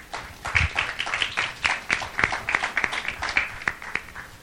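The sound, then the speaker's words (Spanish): Scattered audience clapping at a public forum, with irregular sharp claps that rise and fall in loose clusters for about four seconds, moderately loud and with no talk over it. “Muchas gracias por acompañarnos. Un aplauso también para ella.”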